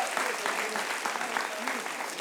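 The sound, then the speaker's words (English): Applause from an audience at a church service, a dense steady clapping that lasts the whole clip with voices mixed faintly into it. “why don't you give them a round of applause?”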